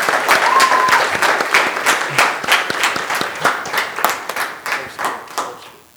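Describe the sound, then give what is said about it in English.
An audience applauds graduates at a ceremony: dense, loud clapping from many hands that gradually thins out, leaving fewer separate claps toward the end as it fades. “Why don't we just give them a round of congratulations?”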